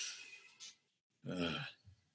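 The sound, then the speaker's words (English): A deep breath: a soft, hissy inhale, a brief pause, then a longer, voiced, sighing exhale, quiet and alone. “Take a deep breath. Go ahead and do it with me now, wherever you are.”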